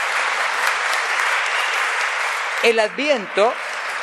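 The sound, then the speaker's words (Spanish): Applause rises from an audience during a church service honoring the Virgin Mary, a dense, steady wash of clapping. A voice begins talking near the end as the clapping continues underneath. “Un aplauso a María, modelo de oración.”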